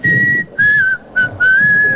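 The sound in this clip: Melodic whistling carries a clear, steady high tune in about four phrases separated by short pauses, with some pitch slides between notes and no voices.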